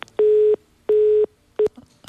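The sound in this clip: Telephone busy tones after a line cuts off during a radio call-in: three loud, flat, steady beeps, the last one shorter, heard alone.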